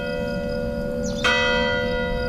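A church bell rings near a chalet. One fresh strike rings out clearly over the steady, humming resonance of earlier strokes, and the bright metallic tone lingers to the end.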